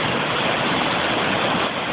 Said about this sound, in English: The snow is wasting no time in getting out of here. And the rivers are, this one here must be going 20 miles an hour.